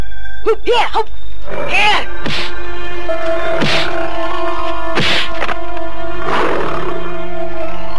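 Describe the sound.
A large striped tiger roars during a fight: several loud, rough roars rise over a dense bed of other dramatic sound effects.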